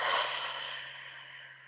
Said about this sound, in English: Let's take another breath together.